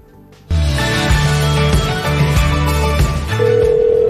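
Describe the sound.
An incoming call rings as an electronic telephone ringtone: a steady sequence of bright, loud tones that shift pitch every half second or so, with no talk over it.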